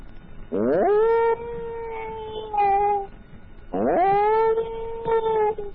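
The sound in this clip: A human voice imitates a dog with two long, wavering howls. Each starts with a quick rising swoop and then holds a steady tone. A short pause separates them, and brief yips follow each one.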